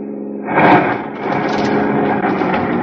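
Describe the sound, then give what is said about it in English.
A car engine on a deserted shortcut road as the car drives with a flat tire and pulls over: a low, steady hum jumps louder at about half a second, then settles into an even, continuous rumble. “Flat tire. Do we have to stop here?”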